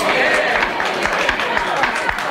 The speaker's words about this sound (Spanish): ¡Orden en la sala! Se recuerda al público que debe abstenerse de manifestaciones que perturben el normal funcionamiento del tribunal.